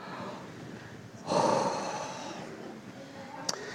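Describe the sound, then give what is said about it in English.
A deep breath is taken together as a group exercise. It rises suddenly as one loud, breathy rush, then trails away over about a second into quiet. “This is my Christmas gift to you. A Christmas breath. Let's all take it together.”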